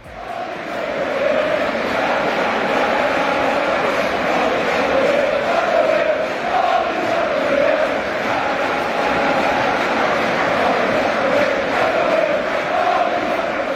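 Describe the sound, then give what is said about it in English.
Liverpool away fans sing and chant together at Old Trafford after their side's 5-0 win over Manchester United, a dense, sustained roar of many voices that stays loud and steady throughout. “Yes, 5 for the Reds at Old Trafford, leaving the away end in fine voice.”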